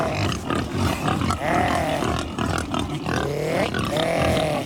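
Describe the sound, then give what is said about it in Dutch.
Iberian black pigs squeal and grunt on a farm in southern Spain, a dense, loud, continuous chorus with several rising, drawn-out squeals standing out above the grunting. “Deze dieren hebben weinig te maken met die roze varkentjes die wij in Nederland kennen. Donkergrijs, met zwarte poten. Daarom heten ze ook pata negra.”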